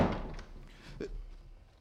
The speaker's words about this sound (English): Close the door. Yes, sir.